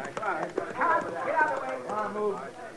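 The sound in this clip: Horse hooves clip-clop as a rider rides off at the start line of a horse race, the thuds fairly quiet and partly masked by overlapping indistinct voices throughout.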